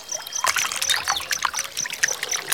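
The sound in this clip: Water trickles from a fountain on a hot day, a steady, irregular patter of small drips and splashes without a break.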